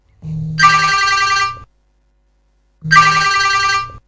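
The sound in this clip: Ringback tone of an outgoing phone call: two long, bright, buzzy rings, each about a second and a half, separated by a stretch of silence.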